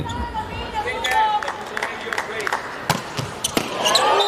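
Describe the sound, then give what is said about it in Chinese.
Volleyball jump serve by the Polish team, taken right after a timeout, heard as a few sharp ball impacts over steady crowd noise, with commentators talking throughout. “我们看波兰队这边的发球，暂停以后上来这个跳发”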